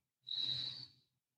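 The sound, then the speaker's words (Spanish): A single slow, deep exhale during a guided belly-breathing exercise, a soft breathy hiss that swells quickly and fades out over about a second, faint and alone. “Entonces, vamos a empezar exhalando.”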